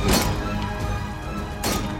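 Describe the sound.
Two heavy axe blows strike a door hinge beside a flaring kitchen fire, each a loud crashing thud, about one and a half seconds apart, with no voices.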